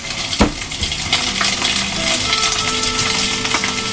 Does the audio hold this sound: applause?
no